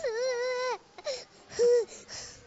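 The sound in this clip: A young child cries in distress, beginning with a long, high wail and followed by shorter sobbing bursts, with brief pauses between them.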